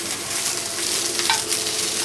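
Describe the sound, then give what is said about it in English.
Onion sautéing in a pan gives a bright, steady sizzle with light stirring scrapes. It stays fairly loud and continuous throughout, with no talk. “Right now I saute the, uh, saute the onion”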